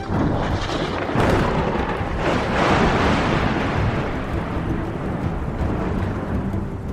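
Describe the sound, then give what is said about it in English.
Rumbling thunder rolls within a chamber, a continuous, dense, loud roar with swelling surges and no break. “the pillars flash with a brilliant light again, and there's another rumbling thunder within the chamber.”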